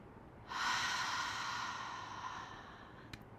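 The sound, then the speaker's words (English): A single big, deep breath taken during a guided relaxation: a long, breathy rush of air lasting about two and a half seconds that slowly fades, heard alone with a faint click just after it. “Okay, big deep breath.”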